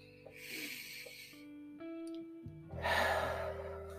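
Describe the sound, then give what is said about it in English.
A person breathing out deeply during a relaxation breathing exercise: two airy, breathy rushes, the second louder and longer, over a steady sustained tonal background. “And breathe out.”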